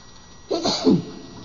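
A single human sneeze, one short explosive burst with a hissy rush and a falling voiced tail, heard alone against faint background.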